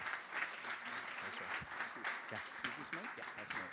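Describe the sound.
Warm audience applause welcomes a speaker to the stage at a morning gathering: steady, dense clapping that continues throughout, with a few voices calling out over it.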